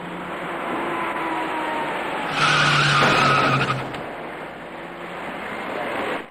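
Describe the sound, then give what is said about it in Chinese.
Tires skid as a white car brakes on a wet road and strikes an electric bicycle rider riding against traffic. A single loud squeal lasting about a second and a half rises out of steady road noise mid-clip. “驾车由东向西行驶的白色小客司机没有注意到那位逆向而来的骑车人，在骑车人准备转弯进入路口时，躲闪不及的白色小客将他撞翻在路面上”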